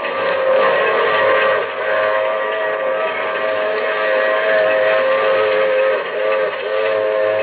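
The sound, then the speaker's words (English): Train wheels rolling beneath a boxcar, heard from inside: a loud, continuous rumbling roar with a steady whining tone running through it, holding an even level throughout. “And the hours go by, and I'm there with him locked in a boxcar. And the wheels keep pounding underneath.”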